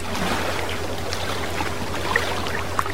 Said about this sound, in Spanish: Hay momentos en los que apetece sentarse en una roca y observar el mar y escuchar lo que nos cuenta.